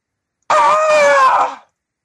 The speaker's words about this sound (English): you hear a scream, blood-curdling, come from the direction of where Kyle and his gang was